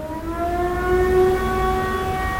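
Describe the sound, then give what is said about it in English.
An air raid siren sounds during its monthly first-Wednesday test in Paris: a loud, steady, continuous wailing tone with strong layered harmonics, held without a break and with no voices. “But on the first Wednesday of every month, they test the air raid sirens for, like, about a minute.”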